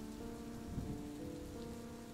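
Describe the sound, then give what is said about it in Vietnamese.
Steady rain falling on a surface, a soft continuous hiss speckled with scattered drops, low in level and unbroken from start to finish, with no voices. “Cũng là trời mưa suốt 3 ngày 3 đêm.”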